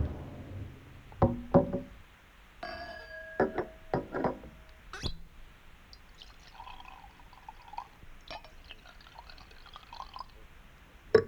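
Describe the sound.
Cognac being poured into a glass as coffee is served: a few sharp glass knocks and clinks, then a soft trickle of liquid, with no talk.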